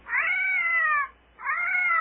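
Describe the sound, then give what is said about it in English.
Feline distress call: two drawn-out, wavering cat wails, loud and high, separated by a short gap. The second cry is cut off at the end. “Feline distress.”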